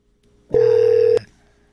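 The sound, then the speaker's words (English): A single telephone keypad tone from dialing a number: one steady, mid-pitched electronic beep lasting about half a second, clean and alone, with abrupt start and stop. “Can you tell me the number I'm dialing?”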